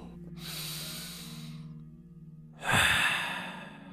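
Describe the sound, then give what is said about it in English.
A deep breath during a guided meditation: a long, soft inhale is followed by a louder, sighing exhale, with faint steady low tones underneath. “Now take one last breath with me.”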